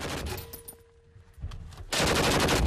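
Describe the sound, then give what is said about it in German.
Rapid automatic gunfire from weapons aimed at a target. Quieter rattling fire at the start gives way to a sudden loud, dense burst of shots that continues unbroken to the end. “Ziele ein wenig höher und mehr nach rechts. Ein bisschen nach rechts. Nach rechts. Weiter schießen.”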